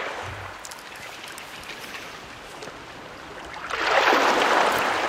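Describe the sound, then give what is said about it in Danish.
Sea waves lapping at the shore by a summer house, a steady soft wash of water that swells louder near the end, with no voices. “Det der hav der, det passer mere eller mindre sig selv. Men det er lyden af der, hvor jeg bor, når jeg er i sommerhuset.”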